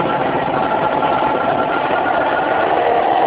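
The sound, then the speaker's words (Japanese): Steady buzzing drone of a 40-horsepower engine powering a small flying craft at a flight competition. It is loud and even from start to finish, with no pauses or change in pitch. “エンジン始動。”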